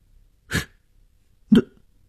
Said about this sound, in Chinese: 女人的咳嗽声？